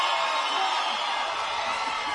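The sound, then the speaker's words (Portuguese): A crowd shouts and cheers in a steady, loud, dense roar that holds evenly throughout without pause. “Cadê o grito dos cachaceiros do Brasil? E das cachaceiras?”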